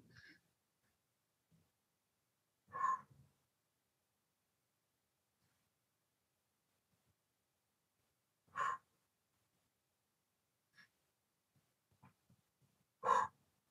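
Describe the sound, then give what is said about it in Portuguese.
Three deep breaths, widely spaced and alone against near silence, each a short breathy rush, with the last one the loudest. “E vamos respirar três vezes.”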